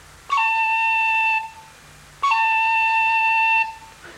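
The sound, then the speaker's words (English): A short roll on the note A, played gently on a blown, fingered instrument with the top two holes covered. Two sustained, steady notes each open with a quick higher cut from the C finger. “A short roll on the note A. Cover the top two holes. Now blow gently and at the same time cut with the C finger,”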